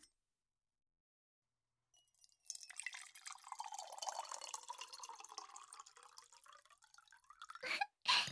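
An original cocktail is poured into a glass: after a quiet start, a continuous trickling, splashing pour runs for about five seconds, followed by a couple of short liquid bursts at the end.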